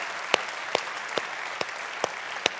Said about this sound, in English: Come on, church, let's put our hands together. Welcome each other today.